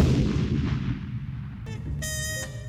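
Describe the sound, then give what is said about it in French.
A toaster exploding after burning the bread: a loud, booming blast whose rumble slowly fades, then a sharp burst ending in a bright, ringing metallic tone. “Le pain sursaute et son grille-pain va exploser.”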